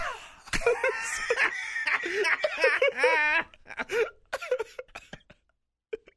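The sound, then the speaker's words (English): A voice imitates a baby coughing after getting a mouthful of powdered dehydrated breast milk: harsh, wheezy coughing bursts mixed with wavering, strained vocal sounds, then a few sparse, brief noises trailing into quiet. “The kids just get a mouthful of powder. Right. Your baby fucking coughs and just says,”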